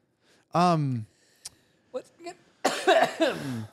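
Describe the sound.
A single harsh, voiced cough as a small piece catches at the back of the throat. A few faint clicks follow, and then people begin talking.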